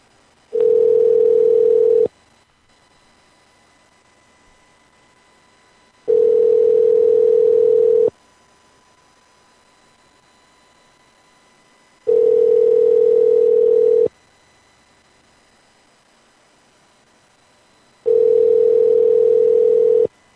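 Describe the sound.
A telephone call rings unanswered: four steady, mid-pitched ringback tones, each about two seconds long, separated by roughly four seconds of silence.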